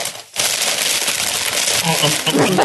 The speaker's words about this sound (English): I'm just unwrapping my candy from the weekend.